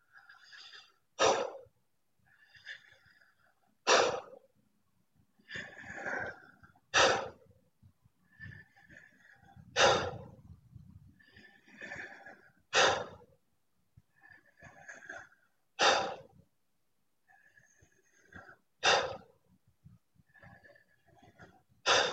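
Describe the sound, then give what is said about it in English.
Intense breathwork at an increased tempo: a softer inhale, then a sharp, forceful exhale, repeated in about eight even cycles, with no talk. “I'll invite you to perhaps increase the intensity of the breath for the next few minutes here. So you might have a slightly increased tempo, something that might sound like this.”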